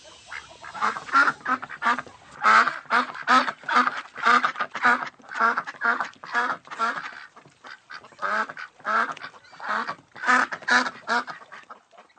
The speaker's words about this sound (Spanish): Y yo sé hablar pato, así que esto no presentará ningún problema. ¡Pato! ¡Pato! ¡Señor Pato!